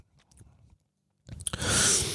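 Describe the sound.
Chewing a white-fleshed, not quite ripe peach: soft, faint bites at first, a short pause, then louder crunching chews that blend into a bright, wet hiss.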